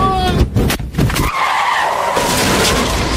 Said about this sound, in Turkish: Almanya'nın ünlü otoban otoyolu korku dolu bir kazaya sahne oldu. 1020 beygir gücündeki Tesla Model S Plate yüksek hız testinde adeta parçalandı.